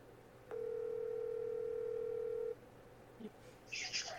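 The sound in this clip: A telephone ringback tone sounds while a call is being placed: one steady, mid-pitched tone holds for about two seconds, then stops, followed by faint clicks and a short burst of noise.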